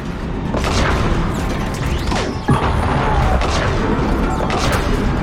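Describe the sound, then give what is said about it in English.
Video game gunfire as computer-controlled soldiers shoot at enemies: dense volleys of shots and crashing impacts with one sharp bang near the middle. “Oh, we're shooting this way now. I can kind of tell which way to go because the NPCs shoot in the direction of the enemies.”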